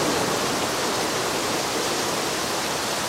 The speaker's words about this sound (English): A faint blue light glows and water cascades down from an unseen source.